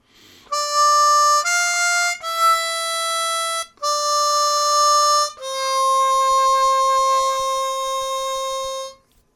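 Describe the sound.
Harmonica phrase on holes 4 draw, 5 draw, 5 blow, 4 draw and 4 blow, five clear reedy notes played loud and alone, with the final note held long and shaken with vibrato.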